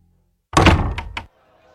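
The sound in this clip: A room door pulled shut with one heavy thunk, followed by a brief rattle of two lighter knocks as it settles, then quiet.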